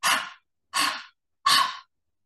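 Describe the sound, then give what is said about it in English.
Three quick, forceful exhalations, each an airy open-mouthed "ha" used to move mucus up the airways. The breaths are evenly spaced and moderately loud, with silence between them and no other sound. “breathe out three times, quickly and forcefully. You want to make a ha sound.”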